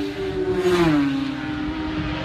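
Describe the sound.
Two motorcycles pass by. A loud engine whine drops in pitch as it goes past, then settles into a steady, lower motor drone.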